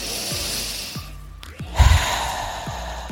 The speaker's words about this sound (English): Sometimes the best thing you can do for yourself, honestly, is not to think, not to wander, not to imagine, or even obsess. Just breathe. And do it by taking deep breaths.